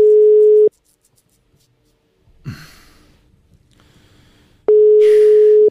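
A telephone line tone sounds while a dropped call is redialed: two steady, loud, single-pitch beeps, one at the start and one at the end, with a quiet stretch and a soft breath between them.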